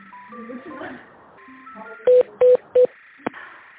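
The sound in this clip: During a call transfer, three short, steady telephone keypad tones sound in quick, even succession, followed by a brief click. A muffled voice is heard just before the tones.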